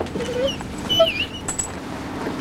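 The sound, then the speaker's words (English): An injured dog whimpers in a few faint, thin high-pitched cries over a low steady background, with no talk. “Porter carries the injured dog into Lynn's old apartment.”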